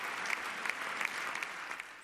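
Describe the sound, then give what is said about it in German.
Applause in the German Bundestag, which interrupted its session to honour everyday heroes in bakeries, supermarkets and drugstores. Quiet, steady clapping from many hands, with a few slightly louder claps standing out. “Für Sie alle unterbrach der Bundestag heute seine Sitzung. Um Applaus für Ihren so wichtigen Einsatz zu spenden.”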